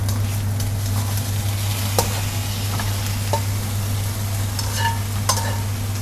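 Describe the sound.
Steady sizzling of chicken frying in oil in a pan: a dense, even hiss with a low hum underneath and a few faint clicks scattered through it.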